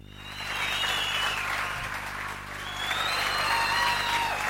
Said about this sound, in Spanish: Me aplauden la idea, como podéis oír.